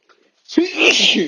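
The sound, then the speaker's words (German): One loud human sneeze from someone with hay fever or a slight cold: a quick breath in, then a forceful, noisy burst that trails off. “Nicht erschrecken, ich muss gleich niesen.”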